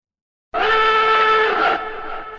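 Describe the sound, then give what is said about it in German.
A short jingle bursts in after half a second of silence as a bright, horn-like sustained chord, then shifts and softens slightly toward the end. “bevor ich da jetzt drauf eingehe, muss ich den Jingle abfahren”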